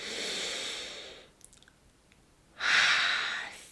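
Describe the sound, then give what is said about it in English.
A slow, deep breath: two long, airy breathing sounds separated by a quiet pause, the second one louder and fuller than the first. “Let's take another breath together.”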